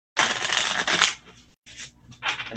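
Affirmation cards are shuffled by hand in a few papery, riffling bursts. A long, dense flurry comes first, then shorter bursts follow after brief silent pauses.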